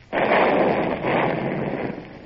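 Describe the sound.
Ship's guns firing on a road: a sudden heavy blast opens into a long rumbling roar, which swells again about a second later before slowly thinning out.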